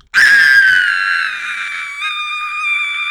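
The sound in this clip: A boy screams loudly in fright: one long, piercing, high scream that starts abruptly, slides slightly lower in pitch, then holds steady and strong for about three seconds, with no other sounds.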